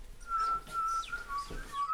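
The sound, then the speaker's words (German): A person whistles an imitation of a bullfinch's call: a thin, soft, high whistle held on a steady pitch, broken into short notes with brief gaps, quiet throughout. “Die Vögel der Heimat. Der Dumpfaff. Der Dumpfaff pfeift so.”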